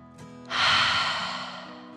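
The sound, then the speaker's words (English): A deep, slow breath taken to calm down: a long breathy rush that swells quickly, then gradually fades, heard alone without talk. “The little tent took a deep dragon breath in and out.”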